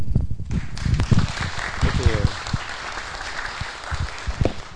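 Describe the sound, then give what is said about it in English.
Audience applause at a free-software presentation: dense, steady clapping through the whole stretch, easing slightly toward the end, with voices over it. “Vamos aplaudir Sterling Allen.”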